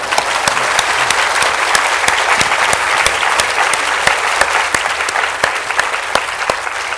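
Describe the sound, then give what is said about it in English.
Loud, sustained applause from an audience at the Edinburgh International Book Festival: dense, steady clapping with many crisp individual claps, continuing unbroken for about seven seconds. “She's actually never been to the Edinburgh International Book Festival before, so I'm sure you'll want to give her an extra loud round of applause.”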